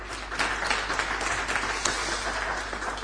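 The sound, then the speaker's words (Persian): Audience applause in honour of a poet, steady and dense clapping that holds at an even level from start to finish. “به افتخار شاعری دست بزن.”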